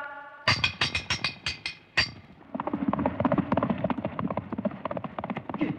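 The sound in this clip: Horse harness bells and hooves of an approaching horse patrol: several sharp, bright ringing strikes come first, then a steady run of rapid clattering hoofbeats, all fairly faint and with no voices.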